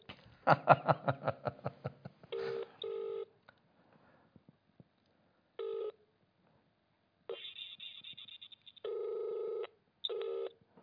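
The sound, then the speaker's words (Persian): Touch-tone dialling followed by the ringing of an unanswered telephone call: a rapid run of keypad beeps, then several repeated ringing tones separated by silence. “خب این شماره رو جواب نمیدن شماره دیگری رو بگیریم”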